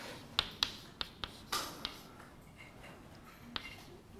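Writing on a board during a chemistry lecture, heard as a quick series of sharp taps and short scratchy strokes. The strokes cluster in the first two seconds, then pause before one more tap, with no talk.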